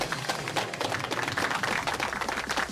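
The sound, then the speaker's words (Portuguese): An audience claps for the contestants of a quiz show, a fairly faint, continuous patter of many hands that keeps a steady, crackling texture from start to finish. “E então vamos pedir uma salva de palmas para os nossos concorrentes e até para a semana!”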